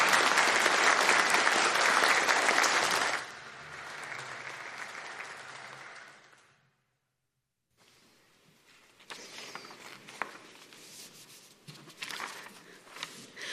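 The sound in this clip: A church audience applauds to welcome new members into its family. The clapping is loud and dense for about three seconds, thins to softer applause, then fades into silence, and lower rustling noise follows.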